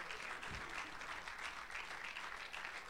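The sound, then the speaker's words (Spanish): Congregation applauding during a church service: a steady, dense patter of many hands clapping without pause, fairly faint overall. “Dele un fuerte aplauso al Señor.”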